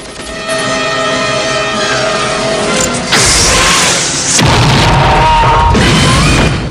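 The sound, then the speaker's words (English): A rocket launcher fired at a truck that explodes in flames: a sudden roaring blast, then a second, longer and louder burst of rumbling noise that keeps up before cutting off. “Rambo grabs a rocket launcher and fires at a truck leaving the compound.”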